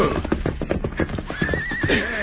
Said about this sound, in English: As he reached the Elkhorn Corral, he pulled his horse to a halt and dismounted.